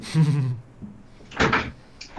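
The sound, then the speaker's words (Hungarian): A window is closed: a voice trails off, then comes a brief, broad knock and rattle of the window shutting, followed by a softer click. “Pillanat, csak közben bezárom az ablakot, mert a szomszéd kutya rájött, hogy létezik.”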